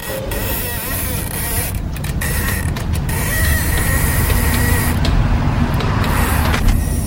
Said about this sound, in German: Ausströmendes Gas.